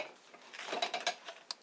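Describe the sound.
Dishes and cutlery clink while food is plated, a few light, irregular knocks and clatters of crockery, fairly faint and with no talking.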